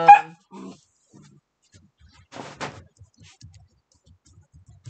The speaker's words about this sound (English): I apologize for the dog noises. I hope people can understand that when the puppy wakes up, it's gonna be crazy for a little bit.